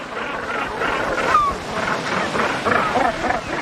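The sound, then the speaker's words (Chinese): A northern gannet breeding colony on the cliffs of Lundy island, several thousand pairs strong, makes a continuous rough din of overlapping harsh calls. The sound holds at a moderate level with no single call standing out. “每年有大约3000对北尖鸟在伦德岛上繁殖后代，而且数量还在不断增加。”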